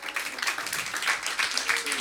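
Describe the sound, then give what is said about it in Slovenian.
Audience applause after a musical performance: dense, continuous clapping that stays fairly even throughout and is moderately faint. “Lea Sirki in Mihaela Peca, en aplavz.”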